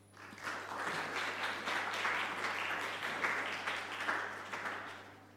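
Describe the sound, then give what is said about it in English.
An audience applauds to welcome a speaker to the stage. The clapping is moderately soft and swells and fades over about five seconds, with a steady low hum underneath and no voices. “And without further ado, I'm going to hand over to Dr. Rachel Hurst. Thank you. Please join me in welcoming her.”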